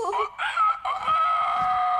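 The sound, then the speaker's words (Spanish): A rooster crows on a farm in long, strained, wavering calls. Two brief breaks interrupt them before a final sustained note. “Ese gallo ha cantado toda la mañana.”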